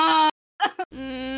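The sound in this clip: A voice imitates sobbing: wavering, whimpering cries broken by a short silence, then a choked gasp and a longer drawn-out wail.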